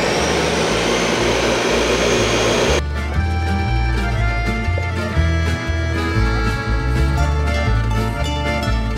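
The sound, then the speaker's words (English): A blender purees a strawberry mixture for gelato: a loud rushing roar for about three seconds, then a steady motor drone with layered humming tones that continues to the end. “we're going to take a little bit of that hot liquid out and put it in with our strawberry mixture, and then we'll blend it up to get it nice and smooth so we can put it in the bottom of the machine to churn with the mix”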